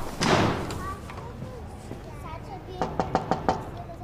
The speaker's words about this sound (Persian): آره درو لطفا ببند